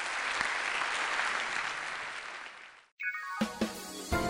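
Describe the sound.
Audience applause at a talk: dense, steady clapping from many hands that slowly thins out over about three seconds, then cuts off abruptly before a few brief, separate sounds.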